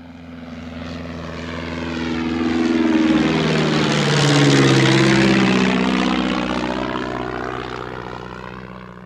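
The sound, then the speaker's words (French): Roar of two Rafale Marine fighter jets performing in an air display, swelling to a loud peak midway and then easing off, with shifting engine tones as the jets pass. “Elle montre une démonstration du Rafale Display Team avec deux Rafales marines, dont un avec la magnifique livrée tigrée noir et blanc”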